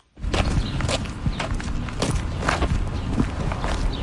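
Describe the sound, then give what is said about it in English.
Footsteps walk through a park on the outskirts of Yerevan, a steady run of crunching steps over a constant outdoor hiss with no talking. “I'm wandering through a park just on the outskirts of Yerevan, the capital of Armenia”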